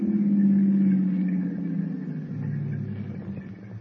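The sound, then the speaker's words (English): A car engine slows to a stop and idles, its low rumble dropping in pitch before settling into a steady, quiet idle. “Would you stop the car? Stop the car? Sure.”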